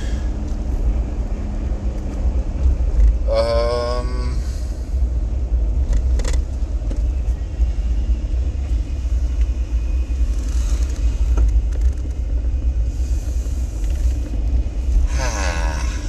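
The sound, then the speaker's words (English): A car drives along a road with a constant low rumble of engine and tyres, broken now and then by a few brief tonal sounds and clicks. “Driving home from work today.”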